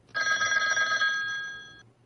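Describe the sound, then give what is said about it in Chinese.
A telephone bell rings on a desk in one continuous, bright metallic trill that lasts well over a second before cutting off, with no voices. “可谁知他还没走出屋子，桌子上的电话又响”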